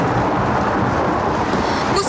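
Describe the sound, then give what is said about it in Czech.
A thunderstorm rages on an exposed summit in the Krkonoše mountains, near rock outcrops, heard as a loud, unbroken roar of wind and rain that holds steady throughout with no distinct crack standing out. “Právě je zastihla bouřka u Harachových kamenů v Krkonoších.”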